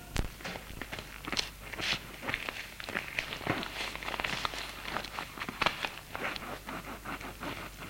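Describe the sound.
Footsteps of two people leaving a bedroom, one of them carrying a suitcase. Many quick, irregular steps run on at a fairly steady level.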